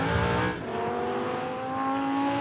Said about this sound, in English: Woo, it's fast. The drifting Lamborghini was based around the Lamborghini Huracan standard 5.2-litre V10 engine.